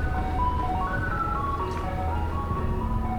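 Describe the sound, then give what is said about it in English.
An ice cream truck drives through a quiet New Orleans neighborhood, its chime melody playing in steady, stepped notes over a constant low engine rumble. “And in a too quiet neighborhood elsewhere in the city, an ice cream man drives a distance before there's someone to spend a dollar.”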